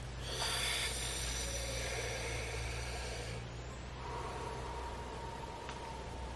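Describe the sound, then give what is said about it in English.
Deep breathing during a guided breathing exercise: one long, airy, noisy breath lasting a few seconds, followed by a quieter, softer breath. “Breathing in, allowing the energy to follow through. Breathing out.”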